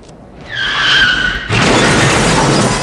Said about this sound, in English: Ryder's pickup crashes through a flimsy garage door